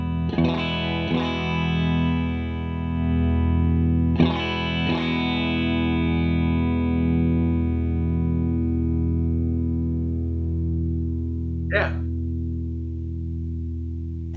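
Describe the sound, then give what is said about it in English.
A Strat electric guitar played through a JAM custom-shop multipedal compressor rings out with a few plucked notes, each held with long, even sustain that barely fades, plus a short sliding squeak near the end. “Sustain is not an issue with this compressor. It's ridiculous. I mean, it's a Strat. It doesn't have a lot of sustain, and yet with that thing, it never stops.”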